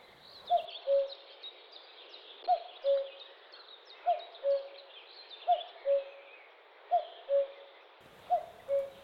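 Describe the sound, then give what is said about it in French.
A common cuckoo gives its two-tone call: six evenly spaced two-note phrases, the second note of each slightly lower, with faint chatter from other birds behind. “chant à deux tons du coucou gris”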